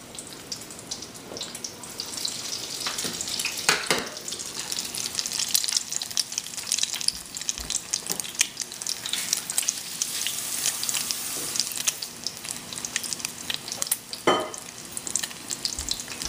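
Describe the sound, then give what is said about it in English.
Egg-coated, already-cooked food frying in a pan: a dense, continuous crackling sizzle holds for the whole stretch, broken by a few sharper, louder pops, with no talk. “And these are not going to take very long to fry at all. So, because everything is cooked, we're just kind of cooking the egg, basically.”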